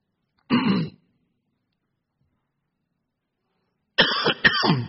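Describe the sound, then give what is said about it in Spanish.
Coughs or harsh throat-clearing from a person in dusty Rosario air: one short burst, a long silence, then a tighter cluster of two or three rougher bursts at the end. “Estoy tosiendo más en Rosario que en Montevideo.”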